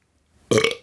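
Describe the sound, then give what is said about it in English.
A single short, loud belch from a man, rough and guttural, lasting well under half a second, with nothing else around it. “Excuse me. I had to belch.”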